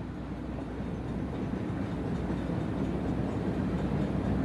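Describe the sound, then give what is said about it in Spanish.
A moving train gives a gentle, relaxing clatter: a steady low rumble with soft, faint rattling that stays even and unbroken throughout. “Del suave y relajante traqueteo del tren.”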